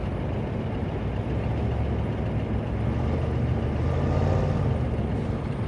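A pickup truck driving along a road gives off a steady, fairly faint low rumble of engine and tyre noise that stays even throughout, with no voices.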